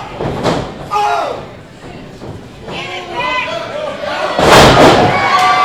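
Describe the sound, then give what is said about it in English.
A wrestler slammed onto the ring mat with a sidewalk slam during a wrestling match: a heavy, loud thud near the end, under continuous excited commentary. “Gorgeous sidewalk slam”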